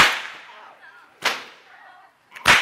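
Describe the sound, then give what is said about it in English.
A bull whip cracks three times, at an even pace. Each crack is a loud, sharp snap followed by a short fading hiss, and the last one comes right after a faint flick. “just a little demonstration of the bull whips here.”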